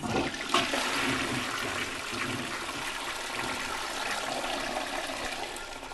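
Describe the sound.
Toilet flush closing out a song: a continuous rush of gushing, gurgling water that stays fairly even throughout at a moderate level.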